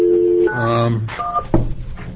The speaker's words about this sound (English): you want to try that phone once more